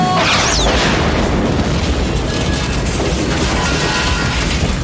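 A grenade explosion in a film scene, heard as a loud, dense roaring blast that holds steady for the whole clip. A brief high whistling sweep appears near the start.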